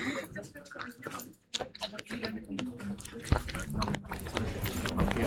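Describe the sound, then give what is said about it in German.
Someone bites into and chews a strawberry, with uneven wet, squishy crunches and smacks. A brief quiet gap falls partway through, and voices talk around the chewing. “Also ich teste jetzt eine Erdbeere.”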